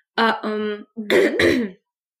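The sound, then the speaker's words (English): A weird, recurring cough that comes up at odd times, heard as a few short, rough, throaty bursts with a strong voiced tone. The bursts are loud, and no one speaks. “I just have, like, a really weird cough, and it kind of, like, crops up on, like, weird times”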